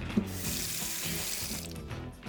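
Water runs steadily from a kitchen tap to wash rice in a small, bare kitchen, producing a continuous, even hiss with no voices.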